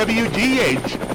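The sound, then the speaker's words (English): A news helicopter's rotor chops in a steady, loud flutter throughout, with a voice heard over the aircraft noise. “looking down on the beautiful city of Marion from the News Chopper”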